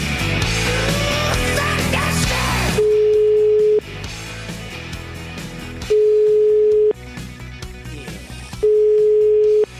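Three steady ringback tones of an outgoing telephone call follow a loud, dense opening passage. Each tone lasts about a second, with even pauses between them.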